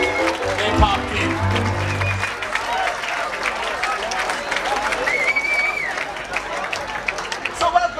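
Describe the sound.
Crowd noise inside a music festival tent, with steady loud babble, clapping and cheering throughout and occasional whistle-like tones rising above the din.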